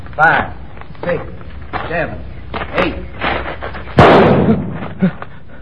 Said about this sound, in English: Are you hit? No, I'm all right. Bullet went through my hat.